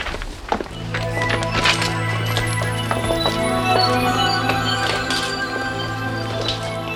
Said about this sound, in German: Sie gingen eine Treppe hinab zur Lagerhalle im Untergeschoss